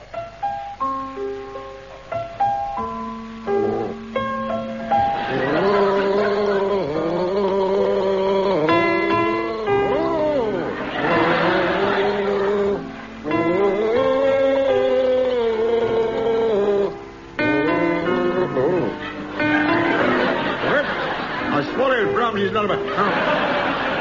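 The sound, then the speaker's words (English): A man gargles the tune of Brahms' Lullaby as a comedy panel game challenge, a bubbling, wavering hum that follows the melody's rising and falling notes for a long stretch. “Will you gargle Brahms' Lullaby?”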